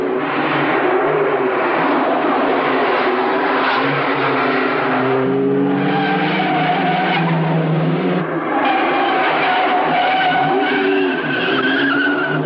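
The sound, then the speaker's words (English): Two cars race along a narrow cobblestone road that winds uphill through a cemetery. Loud, continuous engine roar runs throughout, with skidding tire squeals rising over it. “The two cars weave along the narrow cobblestone road that winds its way uphill through the cemetery.”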